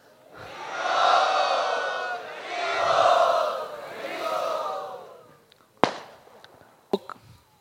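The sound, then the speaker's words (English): A crowd loudly welcoming a visiting swami at a devotional gathering, with three swelling waves of massed voices followed by a few sharp cracks. “Now we shall have His Holiness Shri Dhanudhar Swami Maharaj. Let us very loudly welcome him.”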